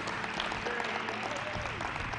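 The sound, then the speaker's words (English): Applause from a church audience clapping their hands: dense, even clapping from many people, fairly faint, continuing steadily for about two seconds with no clear break. “Come on, can we clap our hands for the Lord one more time?”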